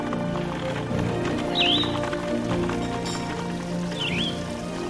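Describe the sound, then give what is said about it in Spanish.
A horse-drawn cart rolls over mud and stones, with hoof clip-clops and a continuous rough rolling noise. Two brief, high squeaks cut through at moments. “Se puede escuchar aún el ruido de la carreta entre el barro y las piedras, subir y bajar ríos, el golpeteo por los duros caminos.”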